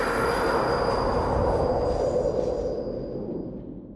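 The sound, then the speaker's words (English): A subway train approaching a station roars with a loud, dense rumble and a thin, steady high-pitched wheel squeal. The noise is continuous, and its loudness eases slightly near the end. “everybody just sort of like stands there and endures the sound of the subway approaching, which it's well over 100 decibels”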